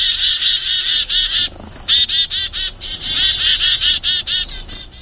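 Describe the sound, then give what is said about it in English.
Chickadee alarm calls: rapid runs of harsh, buzzy, high notes in several emphatic bursts, loud and clear with no talk. “this is the chickadee alarm call. And it's a D, D, D, D call. And you can tell there's an emphasis to the call.”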